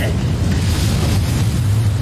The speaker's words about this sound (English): You telling me this whole damn factory blew up because he was trying to microwave a burrito with aluminum on it?